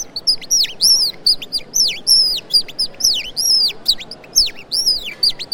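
A nightingale sings a steady run of bright, whistled phrases, each repeated many times in quick succession with short pauses between, clear and alone with no voices.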